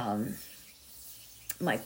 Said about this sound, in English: I'm rubbing my palms together. And that's how you kind of get the energy flowing.